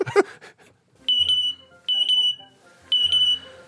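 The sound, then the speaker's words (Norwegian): A parrot mimics a smoke alarm with three shrill, piercing bursts of rapid electronic-sounding beeps, evenly spaced and separated by short pauses, after a brief harsh burst at the start. “Det er lyden av en papegøye som heter Jazz. Hello, this is Jazz. Brittiske papegøyer er så gode å imitere brannalarmlyd at brannvesenet rykker ut.”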